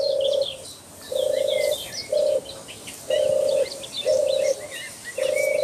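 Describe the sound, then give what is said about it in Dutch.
A European turtle dove coos in a polder in Zuid-Beveland, Netherlands, giving six low, purring phrases in a steady rhythm, with other small birds chirping faintly throughout. “Zomertortel in de Vrouwenpolder Zuid-Beveland. Zomertortel is de kleinste duif van Nederland.”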